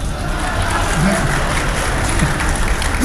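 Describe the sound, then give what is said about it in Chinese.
Loud, steady applause from a live comedy audience at a two-man crosstalk stage show. The dense clapping runs without a break for the whole clip. “几位几位，别瞎给鼓掌，哪儿您就鼓掌来了？”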